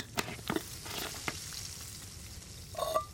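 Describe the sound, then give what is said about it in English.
Canned tomato sauce sizzles in a pan with onions, garlic and spices under a faint, steady hiss, broken by a few short scraping bursts of stirring, then a louder sizzling flare near the end. “Next up, we're going to add our can of tomato sauce. You can dump that whole can right in there”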